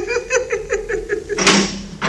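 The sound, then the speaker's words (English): A door opens in a radio drama: a run of rhythmic creaking pulses gives way to two harsh rushes of noise. “Yeah, the door's open.”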